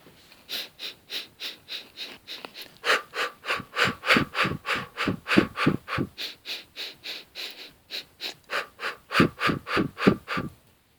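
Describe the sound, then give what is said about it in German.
Rhythmic breathing exercise with quick sniffs in through the nose and breaths out through the mouth, a steady train of many short, even, breathy pulses with no talking. “und sie federn, indem sie die Luft dann den Einatem durch die Nase einschnuppern und durch den Mund rhythmisch wieder abgeben. Es hört sich dann ungefähr so an.”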